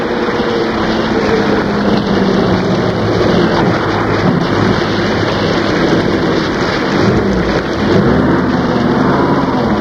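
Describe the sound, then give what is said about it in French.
Rain falls in a constant, loud, dense hiss that stays even throughout, with no clear breaks or separate events. “À la sortie du théâtre, il pleuvait.”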